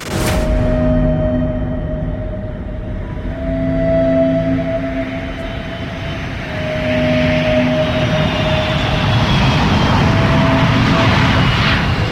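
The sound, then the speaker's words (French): A Caravelle airliner's jet engines roar as it accelerates down runway 21 at Ajaccio airport for takeoff. A loud, steady roar carries droning low tones and a thin high whine, swelling slightly toward the end. “L'avion prend progressivement de la vitesse et se met à filer sur la piste.”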